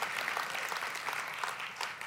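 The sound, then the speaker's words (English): Church audience applauding: a short, faint burst of dense, steady hand-clapping that continues evenly throughout without any voices on top. “Biggest applause we've gotten, amen.”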